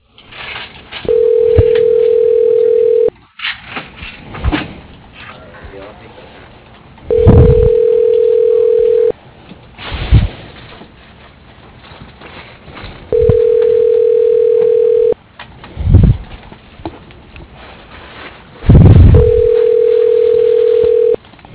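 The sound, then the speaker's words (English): Telephone tones sound while an office extension is being called: four steady, moderately low beeps of about two seconds each, evenly spaced, with faint background noise in the gaps between them. “Dialing Tom Farrow.”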